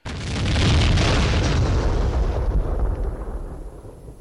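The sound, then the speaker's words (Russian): Explosion of a pyroxylin guncotton charge during a skirmish: one loud, deep boom bursts out at the start and trails into a rumbling decay that fades over several seconds. “Близкая вспышка, привет от Унтера, и взрыв пироксилиновой шашки почти одновременно ударили и по ушам, и по глазам”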